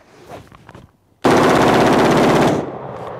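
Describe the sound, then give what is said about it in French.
An AR-15 rifle fires rapidly during sport shooting, with its gas block running hot. After a quiet moment, a loud, continuous burst of closely spaced shots runs for over a second, then cuts off abruptly. “La R15 en mode tir sportif par un certain Irak vétéran 8888 sur YouTube”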